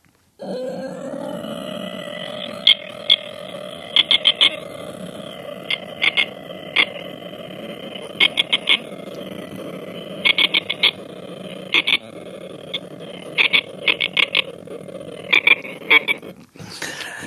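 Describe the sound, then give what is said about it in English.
A human voice imitates the sound of a whole swamp: a continuous low croaking drone, broken again and again by many short clusters of sharp, high clicking chirps, like frogs and insects calling together. “I'm able to make the entire sound of a swamp. And I will attempt to do so now.”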